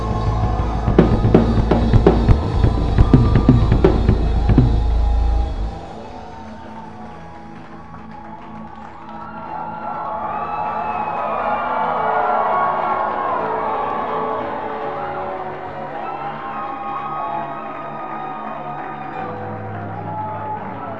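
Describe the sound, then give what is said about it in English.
A church audience claps and shouts to welcome a bishop to the pulpit, with loud clapping and cheering over a deep rumble for about five seconds, then a quieter spell of voices and sustained tones. “Put your hands together. Give the Lord a shout as we welcome Bishop Ogo to the pulpit.”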